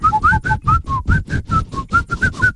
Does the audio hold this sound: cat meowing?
no